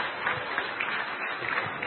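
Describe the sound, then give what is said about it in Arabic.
An audience claps at a public event in Egypt. The applause is dense and steady, with a dull, muffled quality. “دي هواية جميلة أو هواية التسقيف دي يعني حاجة جميلة خالص.”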